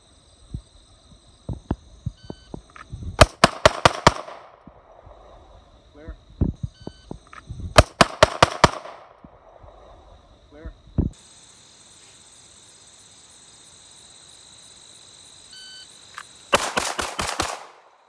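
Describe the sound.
Rapid pistol shots fired from the draw at a shooting range come in three tight bursts of about five sharp, loud cracks each, with lighter clicks and handling noises between them.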